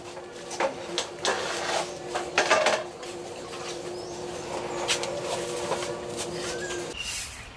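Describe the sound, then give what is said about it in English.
Metallic clatter of a full kettle of water being set on a lit stove: a few sharp knocks and clinks in the first three seconds, then a steady low hum with faint scattered clinks. “The stove is lit and a kettle full of water is set to boil.”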